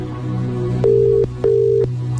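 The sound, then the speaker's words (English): Ringing tone of an unanswered telephone call, heard as a double ring of two steady, mid-pitched tone bursts separated by a short gap over a constant low line hum. “If they don't pick up, we're going to have to move on to the next caller. Let's give it a bit more.”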